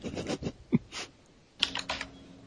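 Typing on a computer keyboard, heard as scattered bursts of quick, sharp key clicks with short pauses between them.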